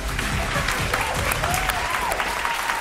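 An audience claps to welcome a contestant at a comedy show, producing a short burst of dense, steady applause.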